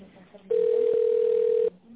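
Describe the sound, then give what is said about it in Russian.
A telephone ringback tone plays while a call is being transferred to a contact centre: one steady, mid-pitched beep lasting about a second, set between quiet stretches of faint line hiss. “Ваш вызов переводится на контакт-центр.”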